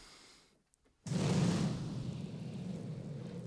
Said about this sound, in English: CGI coming in hot with the fire. Like, that's... I never seen fire that bad, like low frame rate immediately.